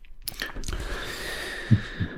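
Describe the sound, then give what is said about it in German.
Someone eating a mandarin: moist chewing and soft wet smacks, followed near the end by two low, short thumps of biting. “Ich fresse noch eine Mandarine.”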